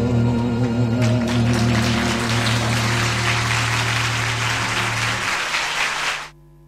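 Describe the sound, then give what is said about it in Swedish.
Live concert audience at The Sands in Las Vegas applauding: dense, sustained clapping over a held closing chord of the band, then the clapping swells alone and cuts off abruptly near the end. “ni hörde publiken där”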